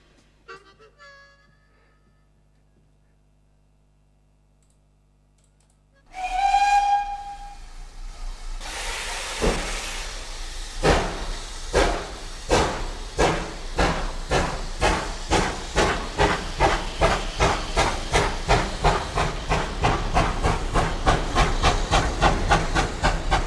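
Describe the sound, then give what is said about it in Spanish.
A steam train whistles as it departs: a loud, steady whistle with strong steam hiss, then rhythmic chuffs that come closer together as the engine gathers speed. “Bueno, voy a subir al tren que va a pitar su salida.”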